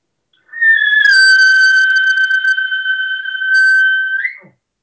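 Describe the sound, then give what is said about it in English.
A high-pitched hunting locator call rings out as a single long, steady note held for about four seconds, ending with a brief upward flip in pitch before cutting off. “I'll get up on a ridge and just kind of generally I'll just do a high locator. One, it'll be one or two notes. Just try to carry that one note as long as you can.”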